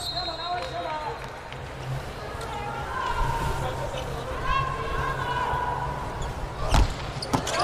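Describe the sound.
A volleyball serve struck during a match gives a single sharp thump late on, over steady crowd hubbub and ongoing commentary voices.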